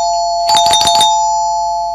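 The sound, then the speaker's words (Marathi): A doorbell rings loudly with a steady electronic tone held throughout, and a brief rippling burst of chime notes near the middle. “अरे bell वाजली. आता कोण आलं असेल? दार उघडतोस का रोहित?”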